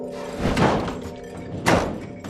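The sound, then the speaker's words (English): A door slammed shut by a woman: two heavy, dull thuds about a second apart over a steady low background hum. “She rises, steps to the door, then slams it shut.”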